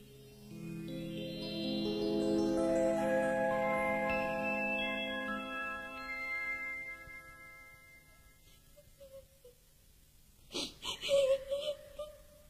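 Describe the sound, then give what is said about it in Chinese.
A woman cries in a long, drawn-out wailing sob whose pitch slowly sinks before it fades away, followed by a few brief, sharper sounds near the end. “你别哭啊！你哭得我心都要碎了”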